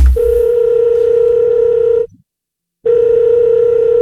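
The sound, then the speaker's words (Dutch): A telephone dial tone from a call to a reception desk: a steady, loud, buzzing hum that holds for about two seconds, cuts out for under a second, then returns unchanged. “Ik ga gewoon zelf eens bellen.”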